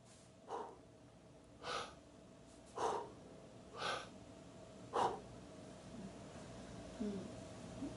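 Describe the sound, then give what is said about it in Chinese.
Chest-breathing demonstration with the diaphragm held still: five short, sharp breath sounds at an even pace, each a brief airy burst, followed by quiet. “再示范一次哦，看好哦，胸式呼吸哦，我横膈膜完全不动哦。”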